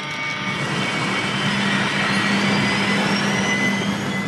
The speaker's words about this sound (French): Ah, ça y est, on décolle. On est dans une sorte de base de lancement et c'est notre jetpack qui nous emmène juste au-dessus